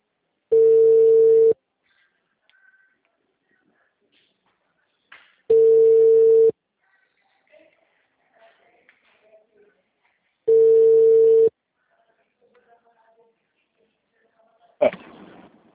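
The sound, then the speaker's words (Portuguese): Ringback tone on an outgoing phone call: three steady, even-pitched tones, each about a second long, evenly spaced by roughly four seconds of silence, followed by a faint click at the end. “Ai, tá chamando, vamos ver.”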